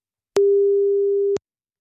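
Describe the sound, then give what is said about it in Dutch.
A telephone ringback tone heard while calling someone: one steady, clean mid-pitched beep lasting about a second. It sounds alone, with silence before and after. “we gaan hem eens even bellen. Ik heb hier zo'n nummer. Komt-ie.”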